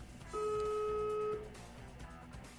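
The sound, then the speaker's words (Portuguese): A single steady two-tone beep, like a telephone call being dialed, holds for about a second over a low, noisy background. “Agora, deixa eu ver, se eu ligar pra ele aqui, botar pra ele pelo menos 3 minutos aqui.”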